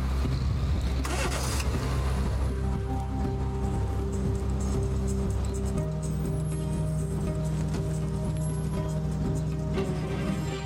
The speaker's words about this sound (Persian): رحمانی از خونش اومد بیرون، سوار ماشین شد رفت.